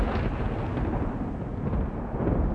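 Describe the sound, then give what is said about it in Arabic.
Thunder from a lightning strike rolls as a continuous, dense low rumble, steady and fairly loud throughout, with no sharp crack standing out. “ما تقلقوش، ده صوت البرق، إحنا متعودين عليه هنا.”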